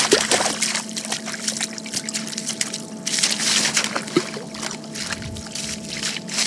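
Splashing water as a dog wades chest-deep into the sea, with irregular bursts of sloshing and spattering over a continuous wash of moving water, moderately loud with no talk.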